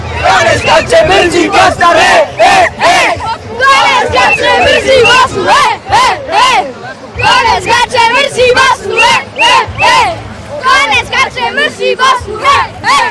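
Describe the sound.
Crowd chanting on a town square in Tuzla at night, with football fans celebrating after a group-stage match. Dense massed voices rise and fall in loud, rhythmic bursts that repeat steadily throughout.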